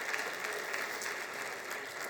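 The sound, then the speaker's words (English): An audience applauds at a regional economic summit, with steady, dense clapping from many hands that keeps an even, moderate level throughout before easing slightly at the very end. “That's worth clapping for.”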